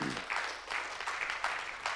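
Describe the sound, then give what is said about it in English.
Faint audience applause, many hands clapping in an uneven patter that swells in several slight bursts. “You can applaud for that.”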